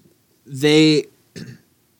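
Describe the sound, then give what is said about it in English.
A small burp or upchuck into a microphone: a short, voiced, croaking gulp followed by a briefer second grunt, alone with no talk. “There's something on your mic there. Hold on, let's get that up. There you go. Well, there wasn't anything on the mic. You're being dramatic. A little upchuck there.”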